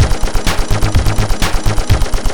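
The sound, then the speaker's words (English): Machine gun fire in a video game, alongside laser weapons. A loud, rapid stream of sharp, evenly spaced shots, roughly six or seven per second, continues without pause. “Laser. Machine gun.”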